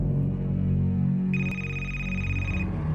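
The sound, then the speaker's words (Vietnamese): A mobile phone ringing in a tense moment, a bright electronic ring tone that starts partway through, holds steady for over a second and cuts off, sounding over a low, sustained musical drone. “Chuông điện thoại của nó đổ, nó lo lắng đánh rơi chiếc máy xuống đất.”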